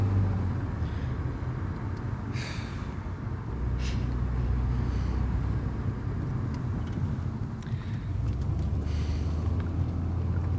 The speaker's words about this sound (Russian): Едут в машине.